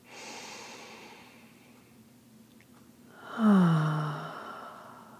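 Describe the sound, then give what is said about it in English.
One deep breath: a quiet, slow inhale followed by a louder, sighing exhale that fades out. “And taking another deep breath.”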